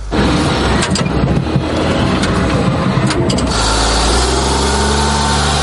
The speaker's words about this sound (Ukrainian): Попри свої чималі розміри, «Хаймарс» легко набирає швидкість. І це ще пересічною місцевістю.